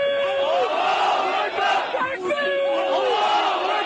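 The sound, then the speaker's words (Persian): Protest crowd in Ankara shouting against Israel in front of the Israeli embassy. Loud massed voices chant repeated slogans, with rising and falling lines over a constant roar. “این صدای خشم و انزجار مردم ترکیه از رژیم صهیونیستی است.”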